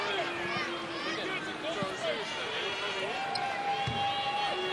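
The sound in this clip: A basketball is dribbled before a free throw in a men's game, with a couple of low thuds mostly masked by crowd noise and ongoing commentary.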